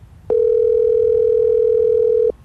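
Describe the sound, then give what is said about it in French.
A telephone dial tone sounds while a call is being placed: a single steady, loud, unbroken tone that starts abruptly, holds for about two seconds and stops sharply, with no voices. “On va essayer de l'appeler.”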